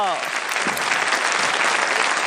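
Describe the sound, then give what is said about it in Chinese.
Parents and children applaud after a kids' game competition, a steady, dense wash of clapping with a voice briefly heard at the start. “哈哈 哈，表现都不错，给自己鼓鼓掌好不好？”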